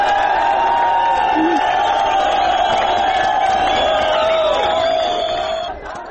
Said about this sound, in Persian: این پناهجویان شعارهای آزادی آزادی را سر دادند.